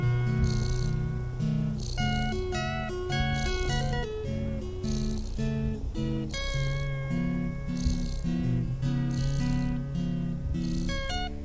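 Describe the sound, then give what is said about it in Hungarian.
A cat purrs beneath a jazzy electronic music track, a low, steady rumble running continuously under the repeating chords and melody. “És akkor egy kis robot jazz. Mellé egy kis dorombolás.”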